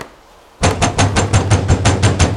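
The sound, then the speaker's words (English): Someone pounds heavily on a door. After a moment of near silence, a rapid, steady run of many loud, dull, booming blows follows in quick succession. “She jumps as the door pounds again.”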